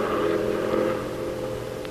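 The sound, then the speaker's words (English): A car on a road, its engine giving a steady, fairly loud hum with a faint whir that holds nearly level throughout. “Here comes a car. Just watch me. Keep your eye on my thumb.”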